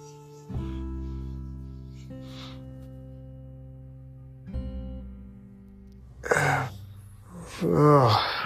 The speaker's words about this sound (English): And now at your own pace, one more time. Inhale, nice and deep through the nostrils.